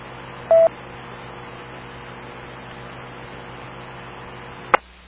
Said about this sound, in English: I just tried the number. I got the voicemail.